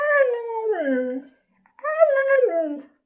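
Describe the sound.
A dog gives two long, whimpering howls. Each is a tonal cry that slides downward in pitch, with a short silent gap between them.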